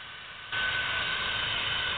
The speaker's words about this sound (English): here's the next sound we're going to hear is a 1011 landing, and then we're going to give it over to Jim Hart